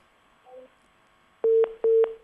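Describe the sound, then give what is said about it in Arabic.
A telephone tone sounds after a call-in line cuts off. A faint, brief tone comes first, then loud, steady beeps repeat in a quick, regular on-off pattern at a single pitch. “طب تمام، الخط قطع.”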